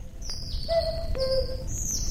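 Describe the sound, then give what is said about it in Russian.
A cuckoo calls once with its two-note cry, the second note lower than the first, while faint high chirps of other birds and insects trill steadily behind it. “Кукушка! Кукушка! Сколько мне лет?”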